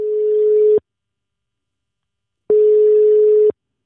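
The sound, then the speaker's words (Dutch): Ringing tone of an outgoing telephone call: two steady, mid-pitched tones, each about a second long, separated by a stretch of silence. “En dan is het maandag en bellen we nog even met captain Marijn Ververs.”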